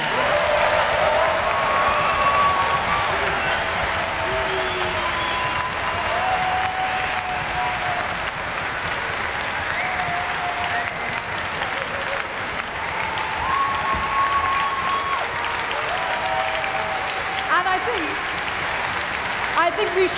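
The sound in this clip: An audience of boys and girls applauds the National Children's and National Youth Chamber Orchestras at a concert with loud, continuous clapping that stays even throughout, mixed with scattered whoops and cheers.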